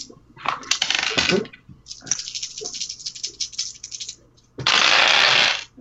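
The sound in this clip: Dice clatter and rattle across a table during a tabletop role-playing game as players make opposed weapon rolls. Several short, uneven bursts of clicking lead into a long, dense, steady rattle near the end.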